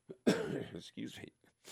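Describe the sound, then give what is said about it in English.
A lingering cough brings a few harsh, throaty bursts, the longest one first, broken by short pauses. The coughing is fairly soft. “Excuse me. Still got that cough hanging on.”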